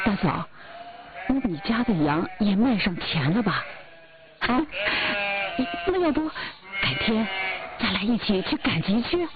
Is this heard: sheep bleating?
yes